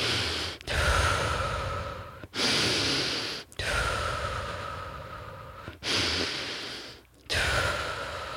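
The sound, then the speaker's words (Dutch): Deep breathing in through the nose and out through the mouth as part of a repeated breathing exercise; loud, slow, rushing breaths follow one another in a steady rhythm, separated by brief pauses, with no talking. “je gaat dus 30 keer diep inademen door je neus uit, en dan laten gaan door je mond.”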